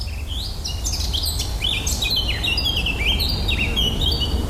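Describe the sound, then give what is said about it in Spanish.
Birdsong fills a New England forest in the northeastern United States: many thin chirps and whistled phrases repeat over a constant low rumble of background noise. “Así suena un bosque de Nueva Inglaterra, noreste de los Estados Unidos.”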